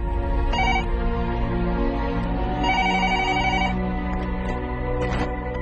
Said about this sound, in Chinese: 电话响到三声，对方接起电话，芳芳就问